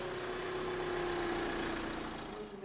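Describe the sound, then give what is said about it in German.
The engine of a bakery delivery van idles at a faint, steady hum as it gets ready to drive off to the markets, holding one low tone throughout. “Pünktlich um 6:30 fahren die Bäckermobile auf die umliegenden Märkte.”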